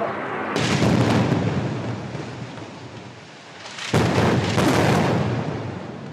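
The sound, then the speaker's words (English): Israeli airstrikes in Gaza bringing multi-story buildings down: two loud, broad roaring blasts, each sustained for a few seconds and slowly subsiding, with no voices. “Israeli airstrikes are bringing multi-story buildings tumbling down.”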